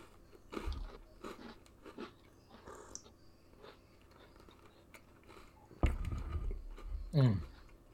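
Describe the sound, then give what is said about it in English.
Quiet crunchy biting and chewing of an Oreo cookie, with soft, scattered mouth sounds and two louder crunches near the end. “I was actually really, excited to have my first Oreo.”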